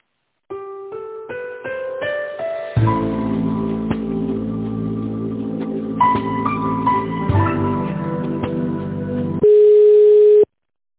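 Electronic telephone line tones while a call is being connected: a short series of rising stepped beeps, then a sustained multi-tone electronic melody, ending in a louder steady single tone, with no talking.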